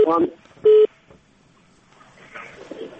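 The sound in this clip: A telephone call being cut off, marked by one loud, steady electronic beep right after a brief bit of talk, followed by faint line noise and quiet, muffled voices.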